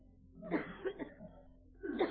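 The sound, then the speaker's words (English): Coughing from a scratchy throat, a few rough, throaty bursts that come close together and then one more after a short pause, fairly faint and with no speech. “Excuse me. Scratchy throat. It's this Montana air. It's too clear. It's getting me all choked up.”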